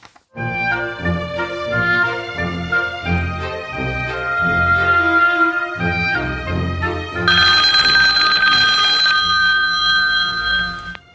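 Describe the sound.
A telephone rings with a bright, tonal, melodic pattern that repeats steadily for about eleven seconds and grows fuller and brighter toward the end.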